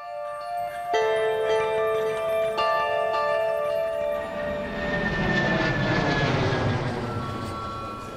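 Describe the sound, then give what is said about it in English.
A jet aircraft at a busy airport: high engine whine first, then a broad roar that swells and stays loud to the end. “the airport is just as busy as ever”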